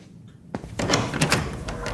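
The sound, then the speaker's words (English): A door being opened: after a quiet moment, a sharp click sounds, followed by a longer stretch of rustling, scraping movement of moderate loudness. “Let me get the door for you.”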